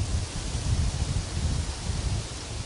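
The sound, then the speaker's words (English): Wind blowing outdoors under northern German clouds, shifting direction: a steady, low rushing rumble with a soft, airy hiss that swells slightly and settles, with no voices. “Do you hear the wind, which is now even slightly changing direction? Now it's coming from behind your back, in a way.”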